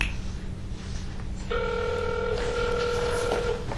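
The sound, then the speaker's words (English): A touch-tone telephone on speakerphone being dialed for a call: about a second and a half of low background hum, then steady, bright electronic tones that sound continuously to the end. “Oh, I know why. I need to dial one.”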